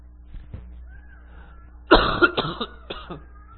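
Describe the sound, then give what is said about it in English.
A short fit of coughing: several harsh, loud bursts in quick succession that break out of a quiet background and then trail off. “I knew this cough was going to act up.”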